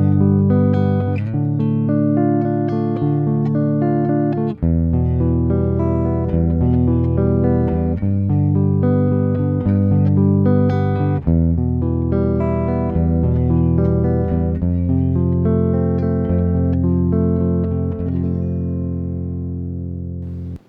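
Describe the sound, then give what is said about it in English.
Chords in the Lydian mode on F, including the primary F, G and E minor chords, sound in a steady sequence of many sustained harmonies at an even loudness that fades slightly at the end. “Did you hear at the end, especially when I used the primary F, G, and E minor chords, how it became very abstract? That is the sound of the Lydian.”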